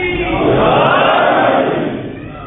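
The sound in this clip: A crowd chants the slogan of Ali, a dense roar of many voices shouting together that swells, holds, then fades away over a couple of seconds.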